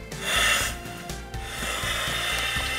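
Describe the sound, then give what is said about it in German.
Rasping, rubbing noise as parts are screwed back together after a new gasket is fitted during a firefighting exercise in chemical protection suits; a steady scraping texture that swells early, then settles into a continuous grind, with no talk. “Also wir schrauben jetzt wieder zusammen.”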